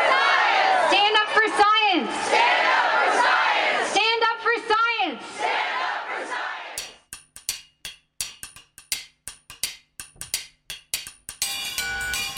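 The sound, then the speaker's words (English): Scientists and citizens chant in unison at a rally outside the American Association for the Advancement of Science annual meeting. Loud, rhythmic shouted phrases come in repeated surges, then a run of sharp percussive hits follows. “That was the sound of scientists and citizens standing up for science at a rally outside this year's meeting of the American Association for the Advancement of Science.”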